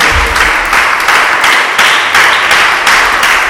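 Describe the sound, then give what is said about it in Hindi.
An audience at a church service gives loud applause for the glory of Jesus Christ. The clapping is dense and steady, with a regular pulse as the hands fall into time together. “यीशु मसीह के नाम की, यीशु मसीह के जलाल के लिए जरा जोरदार तालियां हो जाएंगी”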